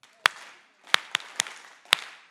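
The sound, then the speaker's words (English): Sharp, unison claps from a lecture audience doing a rehearsed clap routine: one clap, a pause, three quicker claps, then a final clap, five crisp hits in all over near-silence. “So let's give three claps for Simon Wolfram.”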